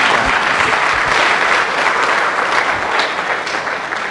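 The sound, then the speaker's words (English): Applause from a church audience welcoming a guest minister, a loud, dense and steady wash of many hands clapping that holds at an even level throughout. “Let's put our hands together and welcome him once again.”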